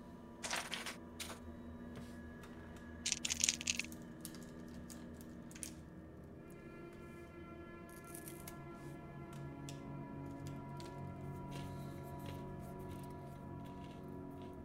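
Tabletop role-playing dice rattle in a couple of faint, brief bursts of clicking, followed by a low, steady hum.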